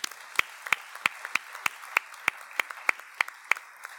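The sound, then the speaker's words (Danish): Scattered applause for a speaker, only a few hands clapping in a loose, fairly steady rhythm of sharp, distinct claps over a faint background. “Ja, tak fordi du delte, Karin. Skal vi give hende en hånd?”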